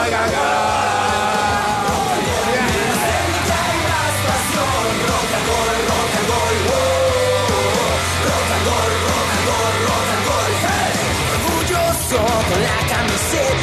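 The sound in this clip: Football supporters chant and shout together at a match, forming a loud, dense, continuous roar of many voices. The sound stays at an even, unbroken intensity throughout.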